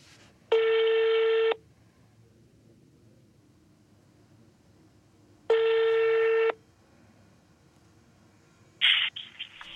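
A telephone call rings out, two long even buzzing ringback tones about four seconds apart, each lasting about a second, followed by a short clatter near the end.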